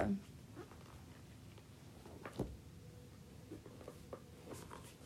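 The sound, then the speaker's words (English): Faint rustling and shuffling as someone leafs through the pages of a large book on the human body, a few soft papery flutters and handling noises spread through a quiet stretch. “If you hear some shuffling, it's because I am going through”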